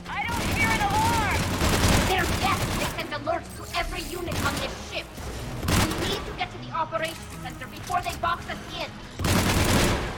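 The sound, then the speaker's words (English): Gunfire in a Mass Effect 1 firefight with a Geth rocket trooper: repeated bursts of shots and heavy booms come in clusters, with a man talking over the combat noise. “It's a Geth rocket trooper. This is gonna hurt if he shoots us.”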